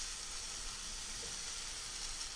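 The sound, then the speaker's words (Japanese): A small amount of finely chopped ingredients stir-fries in a pan, giving a faint, steady sizzling hiss with no distinct stirring strokes. “ここである程度しっかり食べられるぐらいまでは炒めてしまいましょう。量が少ないので焦げつかないように気をつけてくださいね。よく混ぜながら炒めるといいと思います。”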